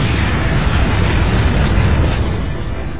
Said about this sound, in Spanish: Sobre la ciudad de Nagasaki. Nuevamente, un B-29 arroja la bomba atómica.